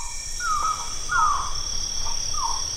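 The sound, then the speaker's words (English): Calls of the Cebu hawk owl, an owl found only on the Philippine island of Cebu: a few short, rasping, downward-slurred notes repeated at fairly even intervals over a steady high insect-like drone. “That's the Cebu hawk owl, found only on the Philippine island of the same name.”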